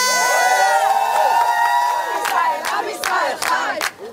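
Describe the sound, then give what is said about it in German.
A large crowd at a rally in Israel celebrating hostages coming home chants loudly in unison, then breaks into cheering with sharp, rhythmic bursts of shouting. “Die Menge ruft, das Volk Israel lebt.”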